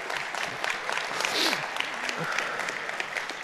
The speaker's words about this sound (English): Can we make some noise for Jack? He's one of our youth pastors here.